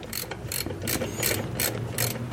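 A ratchet clicks while tightening a fastener near bearings, giving six short bursts of ratcheting at an even, unhurried rhythm. The sound is fairly faint and stands alone without talk.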